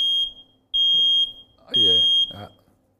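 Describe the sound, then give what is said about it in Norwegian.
Piercing high-pitched beeps from a combined smoke and carbon monoxide alarm under test, sounding three times in a steady rhythm, each about half a second long, while a person talks beneath the later beeps. “Ja. Det var røykvarsleren, den funket. Det var røykvarsleren.”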